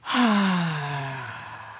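A single long exhale from a relaxation breathing exercise. It begins with a sudden breathy onset, then carries a soft voiced sigh that slides downward in pitch and fades gradually, heard alone.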